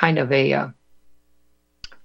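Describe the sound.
A single crisp computer mouse click sounds while someone looks something up, coming after a person speaks and a short quiet pause.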